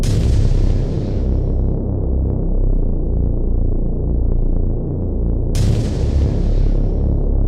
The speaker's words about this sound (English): Shots fired.